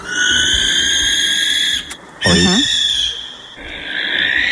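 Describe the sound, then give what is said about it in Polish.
Barn owl screeching: a few long, harsh, sustained screeches that stay steady in pitch, loud and separated by short gaps. “To jest sowa, płomykówka, urocze stworzonko z piękną twarzą, prawda? I ona brzmi tak.”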